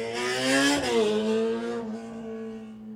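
A car drives past a house, its engine a loud, steady hum. The pitch drops sharply partway through as it passes, and the sound then slowly fades.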